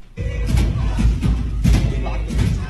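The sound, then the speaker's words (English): Repeated heavy thuds of pro-Palestinian demonstrators banging on a historic college's library door, trying to reach the president's office. Several loud, irregular blows land in quick succession with a steady muffled rumble between them. “What you hear there is the sound of pro-Palestinian demonstrators banging on the library door.”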